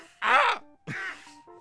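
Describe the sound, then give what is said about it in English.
A human voice imitates a bird's squawk with two harsh, raspy bursts, the first longer and fuller, then a faint brief tail at the end. “he lets out a good squawk. Let's see if I can do a squawk here.”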